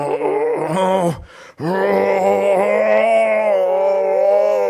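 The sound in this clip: A performer moans through slow breathing exercises as a warm-up before roaring on stage, drawing out a long, steady voiced tone, breaking briefly for a breath, then sustaining a second long moan at an even, fairly loud level.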